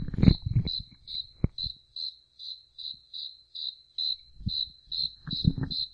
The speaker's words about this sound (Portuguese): Esse grilo é poliglota, cara. Esse grilo é poliglota.